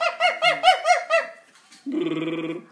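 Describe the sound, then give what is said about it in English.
A dog freaks out with five quick, high-pitched yelping barks in a steady rhythm, then after a short pause lets out a longer, buzzing, wavering whine. “Your dog's like freaking out. What is that sound?”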